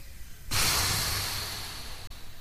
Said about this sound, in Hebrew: קחו מלא מלא אוויר. ונשוף. עוד פעם.